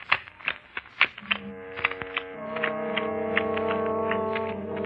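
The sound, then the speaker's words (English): Playing cards dealt for a poker game, snapped down in a quick run of sharp, loud clicks, then a sustained musical chord that swells and holds to the end. “Deal of cards. Poker. Deal.”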